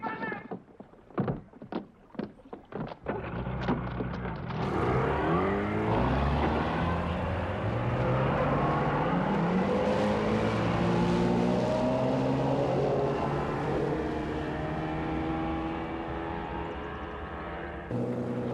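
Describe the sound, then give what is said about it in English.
Jet boat driven through bayous: a few sharp knocks open, then a loud, sustained engine roar whose pitch shifts up and down as the boat runs. “Now we come to the part of the film that really was my favorite, to be able to drive a jet boat around the bayous.”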